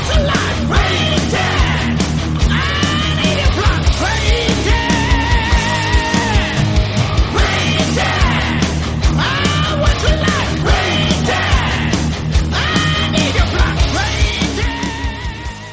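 A loud, hard-edged rock song plays with driving drums and shouted vocals over dense guitars. It runs continuously and fades out at the end.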